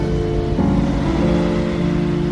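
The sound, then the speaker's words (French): Cars passing along a street lined with 1970s apartment blocks, a steady loud traffic roar with an engine tone shifting as vehicles go by. “J'attends devant, je regarde les voitures passer, tous les gens qui vont au travail, qui ont l'air assez pressés.”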